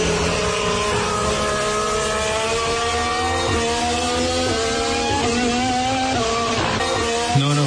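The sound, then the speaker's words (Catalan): A Ferrari racing engine runs steadily, a dense buzzing drone holding near one pitch with slight wavers, with a few brief pops and crackles toward the end. “Es un Ferrari. ¿Un Ferrari? Un Ferrari. Pues no lo hubiese dicho. O sea, que el Ferrari también petardea, ¿eh? Petardea un poco.”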